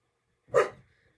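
A herding dog lets out a single short, sharp bark that fades quickly, alone against silence.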